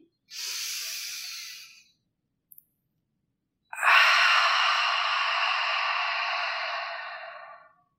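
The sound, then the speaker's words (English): Deep breathing: two long, airy breaths, the first about a second and a half, the second louder and lasting nearly four seconds before fading, with a brief faint tick between them and no talk. “So, let's exhale first to let out any stale air. Go ahead, breathe in.”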